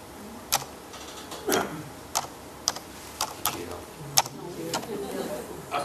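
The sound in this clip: Keys clack on a computer keyboard as a search is typed, giving scattered, uneven keystroke clicks of moderate loudness over a low background.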